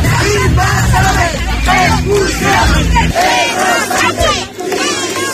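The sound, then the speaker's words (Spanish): Loud chanting from a street protest in Seville over Ceuta, organised by political parties, with many voices shouting short rhythmic slogans in unison and brief yells breaking through between lines. “En directo desde Ceuta, sonido de la protesta en Sevilla.”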